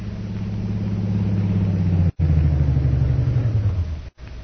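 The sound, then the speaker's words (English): Low engine rumble of a car driving up in front of a hotel in Shanghai: a loud, steady droning hum whose pitch sinks slightly, broken by two very brief dropouts. “Jungle Jim and Shanghai Lil drive up in front of Jim's hotel in Shanghai”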